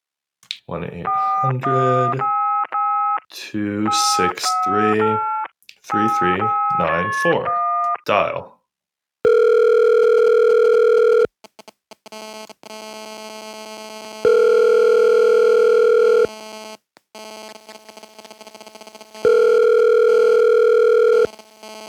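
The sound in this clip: Telephone keypad tones sound alongside a voice as a number to a support line is dialed, followed by a steady line tone in three long, evenly spaced pulses, each loud and lasting about two seconds.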